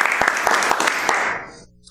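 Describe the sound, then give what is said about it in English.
Applause from a live church audience welcoming listeners: dense, steady clapping that stays loud for about a second and a half, then thins and fades away. “Metron people, would you tell the podcast people a big welcome? Thank you. Thank you for listening.”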